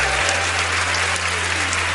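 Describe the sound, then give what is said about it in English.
Audience applause at a live show. A dense, even wash of clapping holds steady throughout, over a low, constant hum. “Again, give yourselves a round of applause.”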